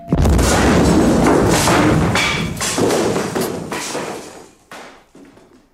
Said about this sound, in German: Morgens um 8 Uhr sollte die Bombe explodieren.